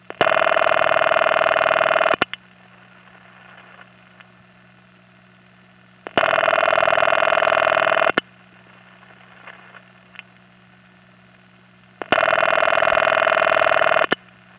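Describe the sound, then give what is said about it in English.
Raucous ringing tone of an early New York automatic dial telephone exchange from the 1920s and 30s: three loud, buzzy rings of about two seconds each, separated by roughly four-second gaps with a low steady hum between them. “the earliest automatic exchanges in New York, that is, exchanges where the phones had dials on them, rang like this in the 1920s and 30s.”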